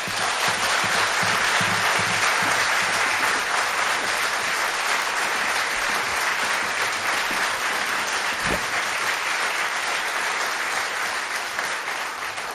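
Sustained audience applause at a charity concert in a hospice setting, a dense, steady wash of clapping hands, loud and continuous throughout with no voices on top.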